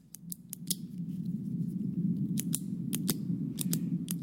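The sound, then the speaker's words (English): Repeated clicking of an old pen: sharp, irregular clicks, many of them, arriving singly and in quick pairs over a steady low hum. “The old pen clicking. Stop it!”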